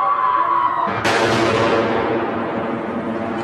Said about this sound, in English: The mortar bombs kept on falling.